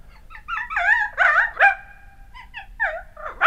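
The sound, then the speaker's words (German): A frightened dog whines and yelps while fleeing down a staircase with its tail tucked, giving a string of high, wavering cries that rise and fall, with short gaps between bursts. “Kaum hat er indes den Hund wieder losgelassen, als dieser heulend und mit eingeklemmtem Schwanze die Treppe hinunterjagt.”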